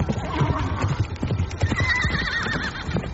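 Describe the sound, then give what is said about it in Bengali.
Horses ridden by bandits gallop off out of a valley. Rapid hoofbeats run throughout, and a loud whinny with a wavering pitch rises over them in the second half. “দস্যুরা লাফিয়ে উঠল। মুহূর্তের মধ্যে সবাই ঘোড়ায় চড়ে তীর বেগে রাজেশ্বরী উপত্যকা থেকে বেরিয়ে পড়ল।”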